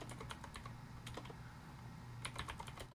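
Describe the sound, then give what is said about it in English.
Typing a web search on a computer keyboard: quick, irregular keystrokes clatter throughout at a soft, steady level, with brief gaps between bursts of keys and no talking. “Now I gotta open up the googies. Let's type in apartheid”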